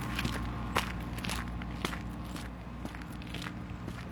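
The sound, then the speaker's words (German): Footsteps of someone walking toward a zoo on a sunny winter day: a steady series of crisp, crunchy steps at an even walking pace, moderately loud, with no talking. “Ein sonniger Wintertag in Schönbrunn. Auf dem Weg zum Tiergarten.”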